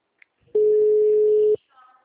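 Telephone tone on an outgoing call: a single steady, mid-pitched beep lasting about a second, preceded by a tiny click and followed by faint low noise.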